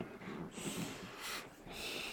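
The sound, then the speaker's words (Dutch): A child breathes in through the nose and out through the mouth. The breaths are soft, airy and unvoiced, repeat a few times and stay faint throughout. “Ja, zo is ademen.”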